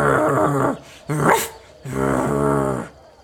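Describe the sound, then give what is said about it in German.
An old dog growls outside, sounding agitated, in three loud bursts: a sustained low growl, a shorter, harsher snarl, then a longer rumbling growl. “Knurre. Oh. Was ist das denn für ein niedlicher Hund? Ach, das ist das die alte Töle vom Dorfvorsteher. Klingt ja ein bisschen aufgebracht.”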